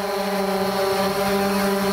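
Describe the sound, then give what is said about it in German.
A camera-carrying drone flies outside near a window, giving off a steady, even buzzing whine with layered harmonic tones that hold continuously and loud for the whole two seconds. “Es braucht lediglich eine Drohne.”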